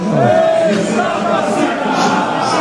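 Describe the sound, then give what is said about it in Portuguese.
Brazilian football fans cheer as a dense, continuous crowd roar that stays steady and loud throughout, with individual shouts rising out of the mass of voices. “Aí é o Pilhado, a torcida brasileira vibra.”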